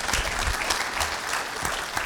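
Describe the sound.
Audience applause welcoming a guest speaker at an event: steady, dense clapping from many hands throughout, without pause.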